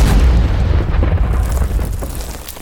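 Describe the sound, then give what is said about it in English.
High-explosive artillery shells burst around advancing British soldiers at Helles: a loud, deep, rumbling blast that slowly fades over a few seconds, with no voices. “the high explosive artillery shells began exploding in every direction”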